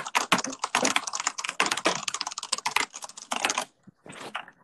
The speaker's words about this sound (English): I would use my keyboard right now, but it sounds like this.